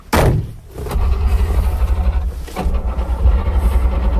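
An old Syrena car engine starting: a sharp mechanical clunk comes first, then a low, uneven, rough rumble settles into continuous running with a slightly pulsing beat.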